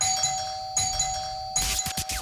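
A doorbell chime, used as a radio contest jingle, rings out in a few bright, bell-like bursts with a steady ringing tone, the last burst followed by rougher, busier sound.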